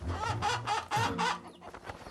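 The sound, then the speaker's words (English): Four chickens, given as a gift by a village chief, cluck faintly: a quick run of short clucks is followed by softer, scattered ones. “Before you go, take these four chickens as my gift to you.”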